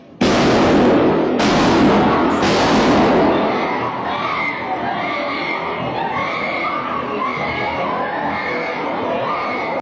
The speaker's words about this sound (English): That third shot that you heard was the shot that put him down.